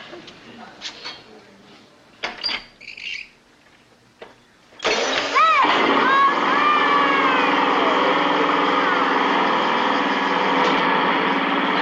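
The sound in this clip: An old car engine, hand-cranked to start, catches and settles into a loud, steady running roar. Brief bursts of voices come before it turns over.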